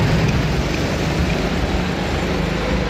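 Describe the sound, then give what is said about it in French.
A go-kart engine drives around a karting track at Payerne with a steady, loud droning roar over a buzzing low rumble. The sound holds constant with no clear pause. “ça commence à sentir bon le pneu. Et c'est parti pour 10 minutes de karting.”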